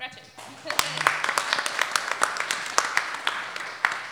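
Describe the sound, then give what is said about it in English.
An audience clapping for a panelist at a panel discussion: brief speech at the start, then scattered, fairly quick individual claps at a moderate level, spaced roughly evenly until the end. “Please clap for”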